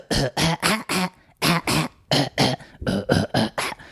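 A sampled cough from an old disc-based sampler holding one-second samples repeats many times in quick, rhythmic bursts, loud and alone, grouped into short runs of harsh coughs.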